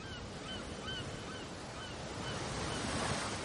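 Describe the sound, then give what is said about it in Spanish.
Sea waves washing ashore at sunset make a constant, even roar that swells slightly toward the end, with a few faint, high bird-like calls in the first seconds. “Las olas mojan a Vladimir que mira hacia arriba.”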